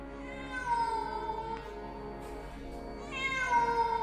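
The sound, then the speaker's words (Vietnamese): A cat meows plaintively in two long, drawn-out wailing cries separated by a brief lull. The tone is clear and high, with no talking. “Bỗng có tiếng mèo kêu, nghe thảm thiết vô cùng.”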